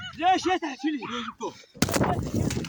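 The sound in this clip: A loud gunshot cracks out after a stretch of talking, followed by noisy commotion, in news footage of an attack on a Palestinian olive farmer working his land.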